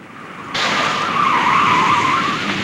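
Tires squeal loudly as a car makes a sharp turn onto a northbound throughway, the skid starting abruptly and holding as a steady, high screech for about two seconds before easing slightly.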